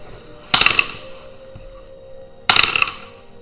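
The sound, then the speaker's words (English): Two loud clattering bursts about two seconds apart as a d20 die is rolled twice, each a quick rattle of bounces that dies away into quiet. “So roll the d20 twice, pick the highest.”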